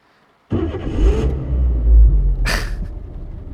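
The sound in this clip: A car engine rumbles and revs as the car pulls away, a loud, steady low drone that lasts about three seconds, with a brief hiss near the end.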